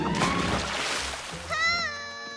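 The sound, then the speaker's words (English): Roo, the cartoon kangaroo, slips on a banana skin and splashes into a river: a broad, noisy watery splash fills the first half, then gives way to a sustained tonal sound as the water noise dies down. “Roo slips on it.”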